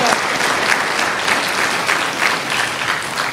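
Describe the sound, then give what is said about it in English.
An audience gives everyone a big round of applause: thick, continuous clapping at an even level from start to finish. “Let's give everybody a big round of applause for getting that.”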